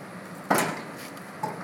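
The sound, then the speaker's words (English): Lids being opened to form a sleeping roof give two quiet hollow clunks, the first sharper and the second fainter, with soft rustling between them. “But what we do, we open up the lids. Right, we open up these lids”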